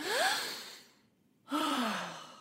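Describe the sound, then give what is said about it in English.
A person takes a deep breath, heard as two airy rushes of breath. The first rises in pitch and the second slides down, with a short quiet gap between them. “The best way is to take a deep breath.”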